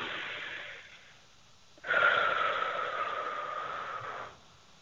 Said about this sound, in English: let's just do that by taking in a breath right now.